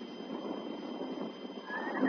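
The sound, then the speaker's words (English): A big black horse whinnies, its brief rising call coming in near the end over a steady low, rumbling background. “Sergeant Preston rode out of town on his big black horse Rex”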